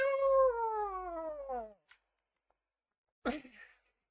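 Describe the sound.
A person imitates a cat's meow with one long, drawn-out vocal meow that falls steadily in pitch. After a pause, a brief, loud vocal burst follows.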